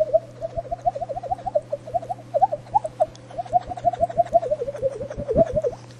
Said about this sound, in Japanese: これ声帯を閉じて、口の中で舌を前後に動かしてるとこんな音するんですけど